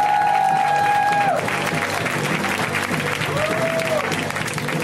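Sustained audience applause for a comedian at a stand-up comedy show, loud and dense, holding steady from start to finish.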